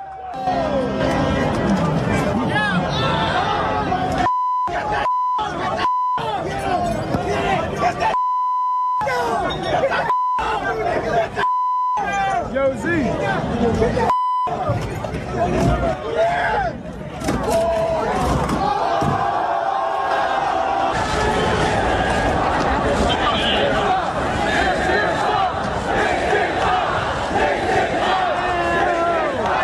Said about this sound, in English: buses were torched, rioting in the streets, fighting galore. And I'm like, how is that a celebration?